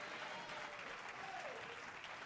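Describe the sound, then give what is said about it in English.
Congregation clapping hands during a church sermon: a continuous, faint wash of applause lasting a couple of seconds, with no talk over it. “Somebody clap your hands and say amen.”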